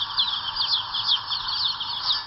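Many chicks cheep together on a poultry farm, forming a dense, unbroken chorus of high, thin peeps that overlap at a steady moderate level with no voices.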